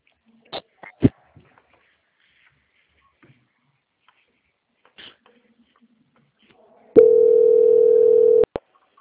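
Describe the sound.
A telephone ringing tone during a call transfer: faint clicks and handling noises come first, then a single steady mid-pitched tone lasting about one and a half seconds, ending with a sharp click.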